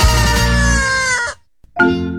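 Roosters crowing, a long sustained cock-a-doodle-doo followed after a short pause by a second crow that is cut off; loud and shrill with no talk.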